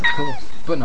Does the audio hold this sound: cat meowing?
yes